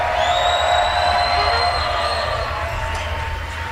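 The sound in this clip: A festival crowd cheers in the WWOZ Jazz Tent, a dense continuous roar of voices with sustained high whistles that slowly eases toward the end.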